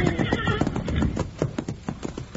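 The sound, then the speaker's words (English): Wild horses gallop and neigh while riders try to rope them. Rapid, drumming hoofbeats run throughout, with a loud whinny near the start. “These are the prettiest wild horses I ever saw in my life.”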